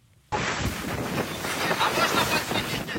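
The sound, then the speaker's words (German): Stormy sea on the Black Sea at night, filmed from a ship in distress with a huge hole in its stern: after a short silence, wind and crashing waves roar in abruptly, with microphone buffeting and continuous loud surging. “Die See ist stürmisch.”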